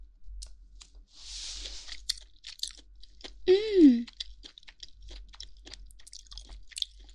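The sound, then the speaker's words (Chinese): Chewing and biting into greasy roasted meat, with moist crunching clicks and smacking scattered throughout and a brief voiced murmur midway. “上面还流着油呢，这就是传说中的人油吗？好香，快吃一口。”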